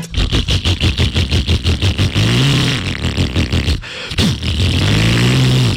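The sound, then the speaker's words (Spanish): A motorcycle engine runs in a steady train of loud, rhythmic pulses, then gives way to a whining rev that swells and falls away twice, with no voices over it. “Si la moto suya suena así...”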